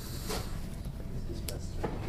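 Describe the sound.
A door being opened, heard as a few faint clicks and knocks spaced over a low, steady background.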